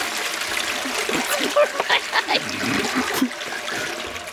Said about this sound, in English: I'm gonna wash my feet in the sink. There we go. There. I'm washing them in the toilet instead.